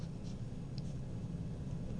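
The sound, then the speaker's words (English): Faint, continuous pen-on-paper scratching as a list is written by hand, a soft steady rasp with no clear pauses. “I wrote it all down.”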